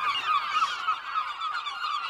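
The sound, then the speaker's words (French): Thousands of aggressive gulls in a colony on a small, wind-battered ocean island squawk and honk without pause, their harsh calls overlapping into one loud, unbroken din. “12 000 goélands agressifs sur une île de 9 hectares, battue par les vents et l'océan.”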